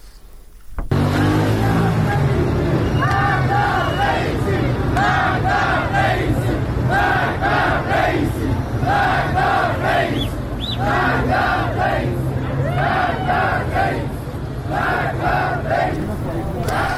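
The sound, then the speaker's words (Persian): Crowd chanting at a protest in Iran: many voices shout a short phrase again and again in a steady, loud rhythm that continues without a break. “البته فایل صدایی که شنیدید در ارتباط با اعتراضات در ایران هست”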